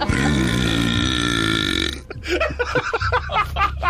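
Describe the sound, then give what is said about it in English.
A man belches a long, loud, trumpet-like burp after swallowing air, a sustained buzzing tone lasting about two seconds, followed by a man talking. “This guy can swallow a bunch of air and burp it back out at you in a disgusting trumpet blast.”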